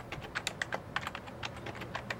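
Typing on a computer keyboard produces a quick, uneven patter of many crisp key clicks, fairly faint and continuous, with no voices.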